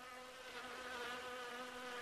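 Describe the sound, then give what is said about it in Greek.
Bees buzzing on a thick branch: a steady, faint, droning hum with a constant pitch and no breaks. “τότε βρέθηκε μπρος σε ένα χοντρό κλαρί με μέλισσες”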